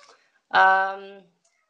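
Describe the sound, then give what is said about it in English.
A female house cat gives a single meow, a short, clear, tonal call lasting under a second and heard alone. “that's my cat, sorry, if you can hear her. She's a bit desperate, like, please stop talking.”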